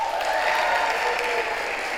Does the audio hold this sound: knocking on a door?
no